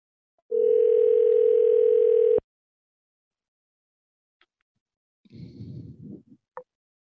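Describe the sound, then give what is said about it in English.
Unstable telephone ringing tone: one steady electronic tone lasts about two seconds, then silence, then a brief burst of rustling noise and a short click. “It's an unstable ringing.”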